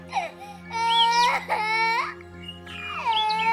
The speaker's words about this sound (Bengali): কথা চলছে এমন সময় থানার একদম সামনে একটা বাচ্চা ছেলে কেঁদে উঠল